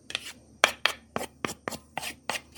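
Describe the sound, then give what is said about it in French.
Macaroni gratin ingredients are stirred together in a pan over medium heat, making a steady series of short, crisp scraping strokes in an even rhythm. “On toutouille afin que tous les ingrédients se mélangent ensemble.”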